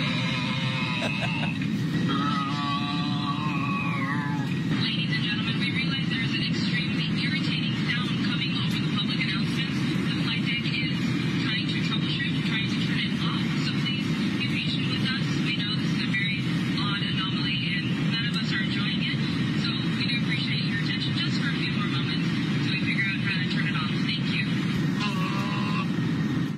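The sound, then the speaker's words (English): A man grunts and moans over a hacked American Airlines flight intercom, his voice riding on top of the loud, steady roar of the aircraft cabin throughout. “An American Airlines flight had its intercom hacked by a person who then grunted and moaned the entire trip. Here's some of the noises being made”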